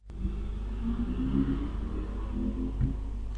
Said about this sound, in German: Was war das? Das war der DeLorean. Das war der DeLorean.